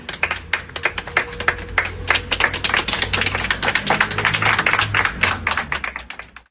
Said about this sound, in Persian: دست بزنید به افتخار خودتون.